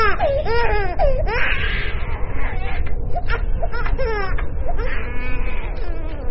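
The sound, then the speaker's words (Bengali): An infant crying, with repeated high wailing cries that rise and fall over a steady background of noise, loud and continuous throughout. “ঠিক তখনই একটা বাচ্চার কান্নার শব্দে ভরে গেল চারপাশ।”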